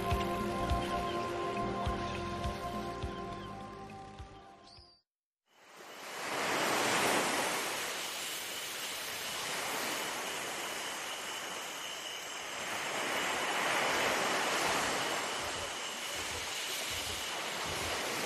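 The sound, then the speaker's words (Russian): Sea waves and surf on the open sea form a continuous, loud, broad rushing roar that swells and eases over many seconds. A few seconds of different tonal sound and a brief near-silent gap come before it. “Безбрежное море, шумные волны и бесконечное небо.”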